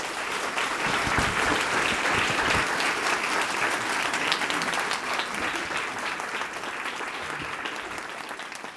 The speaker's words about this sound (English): Please join me in welcoming back to the Institute of Catholic Culture, Dr. Alice von Hildebrand.